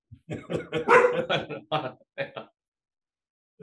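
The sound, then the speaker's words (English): A pet dog barks in a few short, sharp bursts, mixed with a person talking. “Sorry about the dog barking. She's protecting me.”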